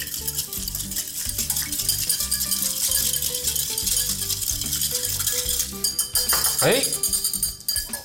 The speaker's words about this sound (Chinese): 好，把它切进去，然后搅拌均匀。